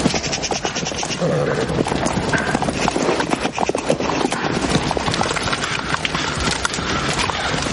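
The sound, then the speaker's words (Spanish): Horses' hooves clip-clop steadily as a royal party rides on a medieval path, followed by mounted knights past small fires. The busy, overlapping hoofbeats run throughout, with an occasional whinny. “Arturo y Ginebra cabalgan seguidos de su séquito de caballeros”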